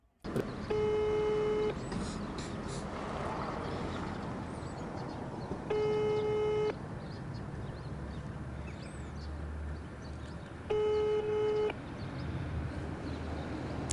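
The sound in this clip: Ringback tone of an unanswered phone call: three steady electronic tones, each about a second long and spaced roughly five seconds apart, over constant background noise.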